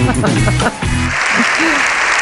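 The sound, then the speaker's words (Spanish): Prolonged applause in a parliament chamber. A voice sounds briefly at the start before a loud, dense wash of many clapping hands takes over and carries on steadily to the end. “7 minutos duró el aplauso.”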